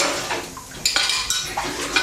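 Dishes and cutlery clatter while someone washes up, with dense, bright metallic clinks and knocks of crockery layered over a continuous wet rattle. Several sharper clanks stand out through the busy, moderately quiet texture.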